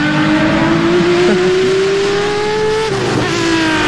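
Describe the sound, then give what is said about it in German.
A Ferrari sports car engine revs loudly, its high, buzzing note climbing steadily in pitch, then dipping briefly near the end before rising again. “wir reden miteinander über Ferrari. Steht für Leistung, Emotionen und natürlich den unverwechselbaren Klang von einem Sportwagen.”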